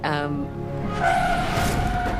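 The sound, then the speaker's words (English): A car skids with a high tire squeal in a film scene where the driver accidentally hits a pedestrian. The screech is loud and sustained, with a voice briefly at the start. “when Almit accidentally hits Tobias with her car.”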